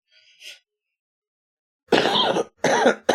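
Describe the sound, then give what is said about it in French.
Harsh coughs from a person: a faint breathy sound first, then after a pause a few loud, rasping bursts in quick succession, with no talk around them. “Je suis désolé d'avoir toussé.”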